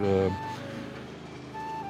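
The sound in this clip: A Fruit Collect vehicle drives out of a yard in Anderlecht, a low motor rumble with brief tonal beeps, under a man talking.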